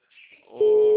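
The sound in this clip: Ringback tone of an outgoing telephone call: a steady, unbroken single-pitch tone starts partway through and holds to the end, after a brief faint noise.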